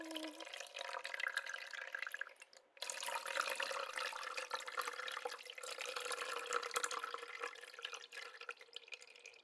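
Warm water poured slowly over hair during a hair wash: a faint, steady trickle with soft splashing and dripping, dipping briefly early on before continuing evenly to the end.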